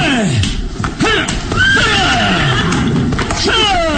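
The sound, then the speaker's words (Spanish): Horses neighing as they are whipped to go faster across a bridge: several loud, shrill whinnies with sweeping, falling pitch overlap one another in quick succession. “fustiga a los caballos para acelerar la marcha.”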